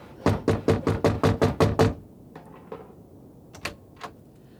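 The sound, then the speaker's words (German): Knocking on a wooden hut door: a quick, even run of nine sharp raps, then quiet with a few faint scattered taps and one or two softer knocks afterward. “Wir klopfen einfach hier an der Hütte.”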